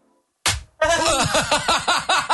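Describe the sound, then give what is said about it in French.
One sharp, loud lash of a martinet whip cracks out after near silence, followed by a rapid, rhythmic run of pulsing voice-like cries. “c'est premier coup de Martinet. C'est parti.”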